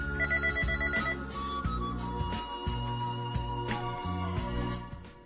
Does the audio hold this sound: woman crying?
no